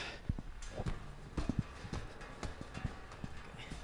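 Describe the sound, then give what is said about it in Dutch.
Footsteps climbing a stairway to an upper floor, a fairly faint, steady run of hard knocking steps with no voices. “We gaan nu naar verdieping 2. En dan gaan we de trap op.”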